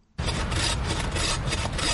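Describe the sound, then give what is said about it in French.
A hand saw rasps through black wattle acacia wood as loggers cut in a thick thicket in South Africa, a steady, coarse, grinding noise that begins abruptly and continues at an even loudness with faint stroke-like surges. “Une scie à la main, les bûcherons s'activent dans un épais taillis de black wattle, un acacia originaire d'Australie, importé en Afrique du Sud.”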